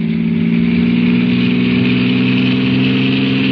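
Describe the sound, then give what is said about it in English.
A car engine droning loud and steady, a constant low hum with a rough, buzzing texture and no clear change in pitch. “I stepped on the gas like a shot.”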